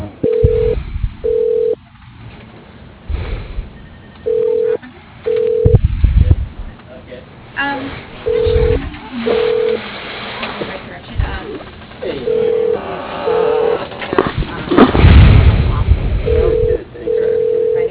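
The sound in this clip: Telephone keypad tones as letters of a person's last name are entered into an automated phone directory. Several short bursts of steady beeps come in irregular groups, with muffled rumbles and noise between them.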